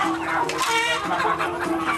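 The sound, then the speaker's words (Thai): Free-range village chickens cluck busily, many overlapping short calls forming a continuous, fairly loud chatter with no pause. “คนกัมพูชานิยมกินไก่เลี้ยงตามธรรมชาติหรือที่บ้านเราเรียกว่าไก่บ้านนั่นแหละครับ”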